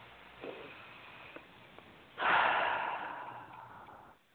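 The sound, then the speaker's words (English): A slow, deep breath is drawn in as a long breathy rush of about two seconds, following a few faint smaller breaths, quiet and without talk. “Take a nice deep breath.”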